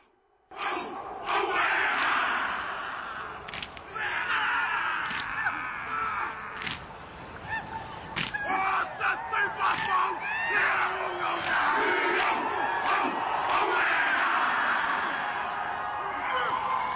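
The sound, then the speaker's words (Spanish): Maori haka war chant performed by a group, with loud rhythmic shouted chanting and sharp cries. It bursts in after a brief silence and stays forceful, with a few brief dips in intensity. “Y por ejemplo, cuando se enfrentan con el otro barco, bailan el haka. Escuchemos un poquito del haka.”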